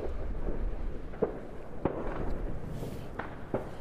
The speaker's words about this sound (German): Ja, im Hintergrund hört man, dass Silvester im Prinzip schon dabei ist, auszubrechen. Und das ungefähr 4 Stunden, bevor es eigentlich Mitternacht ist.